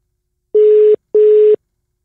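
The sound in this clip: A telephone busy tone plays as a call fails to connect: two identical beeps at a steady mid pitch, each lasting under half a second and separated by a short silence. The beeps are loud and sound alone.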